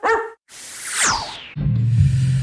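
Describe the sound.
A single short dog bark opens, then a sweeping, falling whoosh and a low droning hum take over.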